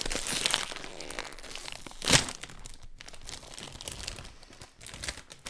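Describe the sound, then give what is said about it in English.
A new pack of sour Skittles candy is opened: crinkly plastic rustling runs throughout, with one sharp, louder tearing burst partway through, then quieter handling of the wrapper. “I'm going to grab a new pack. Okay. Let me get this ASMR real quick.”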